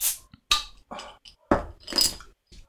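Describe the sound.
Glass clinks and clatter as a bottle of light 3.3% low-calorie beer is opened, a few sharp, bright bursts separated by short gaps, with no talking.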